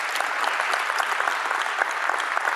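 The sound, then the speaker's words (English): A church audience applauding its elders during a service. Dense, even clapping continues steadily at moderate loudness throughout. “One more round of applause for them. They deserve it.”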